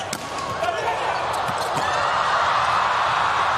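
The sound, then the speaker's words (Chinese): A table tennis serve gives a few light, sharp taps of the ball under a steady murmur of crowd noise while a commentator speaks. “李永贞发球，发直线，”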